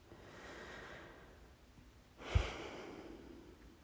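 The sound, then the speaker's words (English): One long, deep breath is drawn softly during a guided relaxation exercise. It swells briefly to a breathy peak, then fades back into a quiet, hissy background. “Let's take a long deep breath. And another.”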